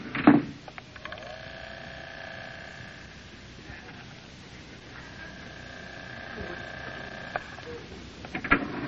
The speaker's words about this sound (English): Hurry, there's the elevator. Down, please. Watch your step, Mary.